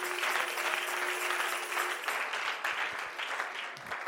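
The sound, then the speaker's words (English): An audience at a worship service claps hands in dense, continuous applause. The clapping stays steady and fairly faint throughout. “Come on, clap your hands to the Lord.”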